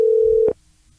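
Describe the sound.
Telephone ring tone: a single steady, mid-pitched electronic tone lasting about half a second, then cut off abruptly into near silence.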